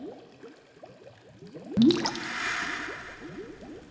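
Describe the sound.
Water drips and splashes in a hot spring bath: many small, quick droplet sounds, then a sudden louder splash partway through, followed by a steady wash of running water.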